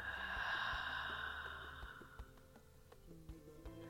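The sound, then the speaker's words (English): A slow, deep breath exhaled during a guided meditation, a soft breathy rush that is strongest at the start and gradually fades to quiet. “taking another deep breath into your heart. And then exhale out.”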